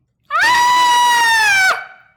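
A shrill, drawn-out shriek rings out alone, one sustained high cry that holds a nearly steady pitch before dropping away at the end.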